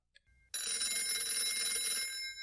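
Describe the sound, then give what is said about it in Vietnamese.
A telephone rings with a steady, bright electronic ring that runs unbroken for about two seconds after a brief quiet moment and a faint low rumble. “Bóng điện thoại của thằng Hùng reo lên. Nó nghe máy rồi ừ mấy tiếng lại cúp máy.”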